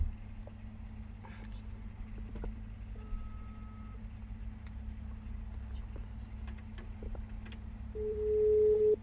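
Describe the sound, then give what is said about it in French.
A telephone busy tone on an unanswered call: a steady, mid-pitched electronic beep that swells loud near the end over a constant low hum, with quiet voices talking earlier. “Allez, Céline, décroche. C'est occupé.”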